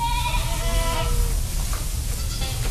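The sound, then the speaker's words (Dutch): Goats bleat on a farm with a large herd of goats and sheep, in wavering, nasal cries that stand out at the start over a constant dense background of animal noise. “Ja, queste sono le capre, sì.”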